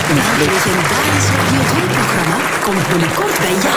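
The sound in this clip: Applause from an audience after an award presentation: a dense, steady clatter of clapping that fills the whole clip, with a voice talking over it.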